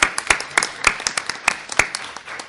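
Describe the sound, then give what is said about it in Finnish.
Sparse applause from a small group at a meeting marks the close of an agenda item. About a dozen distinct, irregular claps sound moderately loud, then thin out and fade. “Ja ystävät, nythän on aplodien paikka.”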